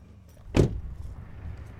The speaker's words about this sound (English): We get out of the car to get a closer look.